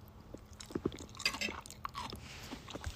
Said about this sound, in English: Now I'm gonna eat my mac and cheese.